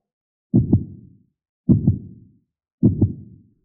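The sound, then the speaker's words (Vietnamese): A heartbeat sound effect thumps three times, each beat a low, muffled double thud, evenly spaced and heard alone against silence. “Chẳng biết tại sao, trái tim của hắn đột nhiên trở nên mất kiểm soát, đập liên hồi, hơn nữa có khuynh hướng đập càng lúc càng nhanh.”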